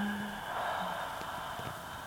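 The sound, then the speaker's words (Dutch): A deep breath drawn in during a guided breathing and shoulder-loosening exercise: one long, airy, steady inhale lasting about two seconds, soft and even, with no talk over it. “Adem in en herhaal dit. Adem in.”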